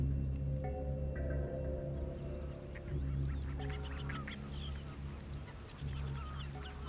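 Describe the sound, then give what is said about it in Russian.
Geese swim on a lake, honking and calling many times in overlapping, nasal bursts of varied pitch over a steady low background drone. “По озеру плывут гуси.”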